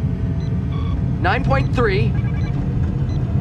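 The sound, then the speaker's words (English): A starship transwarp drive engages in a science-fiction sound effect, heard as a low, continuous rumbling hum that holds steady throughout. A brief voice sounds over it midway. “Acknowledged. Engaging transwarp drive in 4. 3. 2. Transwarp online.”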